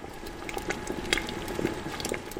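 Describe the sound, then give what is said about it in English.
A syrupy red cranberry sauce, made from last year's berry harvest, bubbles in a large clay pot: soft, irregular pops and gurgles over a steady low simmer, fairly quiet. “a couple of his employees are cooking up a batch of cranberry sauce made from last year's harvest. A syrupy red liquid bubbles away inside a large clay pot.”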